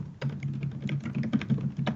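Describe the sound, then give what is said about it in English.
Typing on a computer keyboard: a quick, irregular run of many soft key clicks, fairly quiet and continuous. “Pretty good typing sounds. I really enjoy them.”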